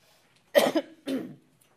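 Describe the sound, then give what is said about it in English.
Someone clears their throat in two short, raspy bursts, the first slightly sharper. It is fairly quiet and heard alone, with no talk. “let me first of all clear my throat”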